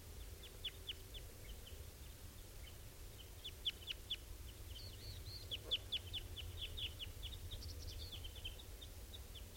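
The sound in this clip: Many short, high chirps come from a bird flock, adults feeding young. The chirps repeat irregularly and faintly over a steady low background rumble.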